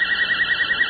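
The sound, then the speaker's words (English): A voltage-controlled oscillator modulated by a 10 hertz signal gives a steady high electronic tone with a rapid, regular pulsing throb, heard alone. “what we've done is modulated a voltage-controlled oscillator with an exactly 10 hertz signal”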